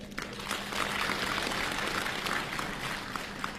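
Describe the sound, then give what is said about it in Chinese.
Warm applause from an audience greeting two crosstalk comedians at a New Year comedy show: a dense, even patter of many hands that holds steady throughout. “谢谢您热情的掌声。”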